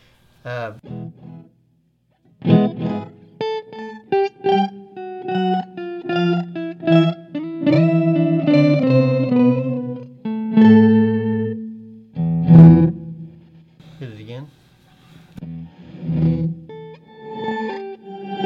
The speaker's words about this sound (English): I don't know if I'm smart enough to operate this pedal. And you can hear the octaves. You can actually control here. Those are cool. I was playing with those before the show. Yeah. So we're gonna put an octave down and an octave up.